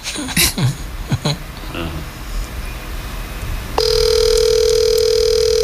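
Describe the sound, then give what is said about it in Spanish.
A telephone ringback tone on an outgoing call begins partway through and holds as a loud, steady mid-pitched tone. Brief speech and clicky handling noise come before it. “Espérate, estoy llamando. Bueno, primer repique.”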